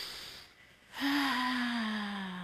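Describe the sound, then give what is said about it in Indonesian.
A breath drawn in through the nose and let out through the mouth: a soft airy intake, then a louder, sustained exhale with a faint voiced tone. “Kita hirup udara dengan hidung. Lalu kasih keluar di mulut.”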